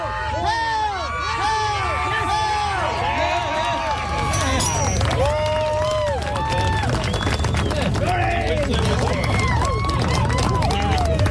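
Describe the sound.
A crowd shouts and cheers as an athlete lifts the heavy Scottish lifting stones. Many overlapping voices call out loudly and continuously over a steady low rumble.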